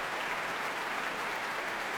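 Cheering and applause from the audience at an orchestral concert as the conductor comes to the front of the stage: a dense, steady wash of clapping that holds at an even, fairly loud level throughout.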